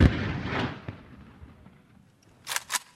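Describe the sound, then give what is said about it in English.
Gunfire in battle: a loud blast opens with a long rumbling decay, a few faint pops follow, and then two sharp cracks come close together near the end. “But soon they had to fire in anger. The battle had begun.”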